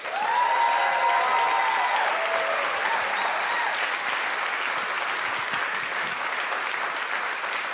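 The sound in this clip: Enthusiastic applause from a church audience welcoming a speaker, a loud, continuous wash of clapping that holds steady for several seconds without a break.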